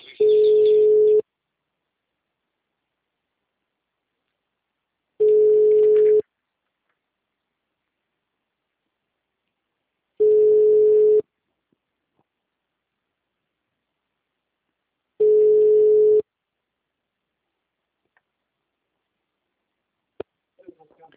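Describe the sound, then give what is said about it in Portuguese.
Ringback tone on an outgoing telephone call: four steady, low-pitched tones, each about one second long and repeating every five seconds, followed by silence and a few faint clicks. “Tá chamando seu Genésio.”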